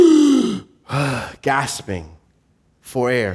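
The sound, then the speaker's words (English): A man's voice imitates a young man gasping for air after being held under water and pulled back up, a few strained, breathy voiced gasps separated by short pauses. “gasping for air”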